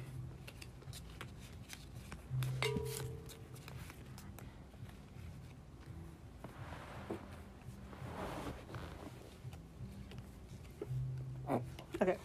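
Newly received playing cards being handled, with soft rustling, sliding and riffling that continues steadily and faintly, with a few brief louder flicks near the end.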